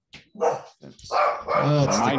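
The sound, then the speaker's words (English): A dog barks at someone at the front door: a few sharp, loud barks in quick bursts, some short and some drawn out, forming an uneven sequence. “My dog or your dog? That's my dog.”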